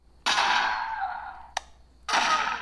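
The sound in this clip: Air-compressor-powered toy guns fire at aliens in a Halloween shooting game for trick-or-treaters: two loud hissing bursts of air with sudden starts that slowly fade, separated by a single short, sharp click.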